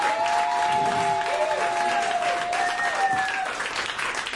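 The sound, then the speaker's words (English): An audience applauds at a live evening event after the host thanks the venue, a dense, steady clapping that holds at an even level for the whole stretch, with no talk above it. “And friends, a huge round of applause.”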